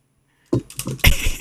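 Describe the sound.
Typing on a computer keyboard: after a short silence, quick bursts of clicky keystrokes come in uneven clusters, with the loudest run near the end.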